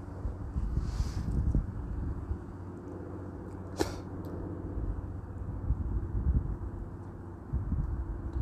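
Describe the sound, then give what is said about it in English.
Wind blowing in from the northwest gives a steady low rumbling buffet, even and continuous throughout, with one brief sharp tick partway through. “Feel the wind coming in from the northwest right now.”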